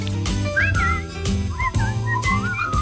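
Someone whistles a cheerful song melody in short, bright notes that slide up and down, carried over a steady, full lower background sound that runs throughout.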